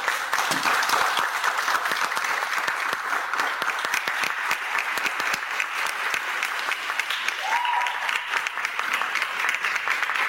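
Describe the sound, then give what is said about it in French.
Sustained applause from a crowd acclaiming church choirs at a parish church during an evening choral liturgy: dense, continuous clapping with crisp individual claps, staying steady and fairly quiet for about ten seconds. “Nous sommes ici à la paroisse Saint-Michel-Archange du Mpoto qu'on acclame très fort.”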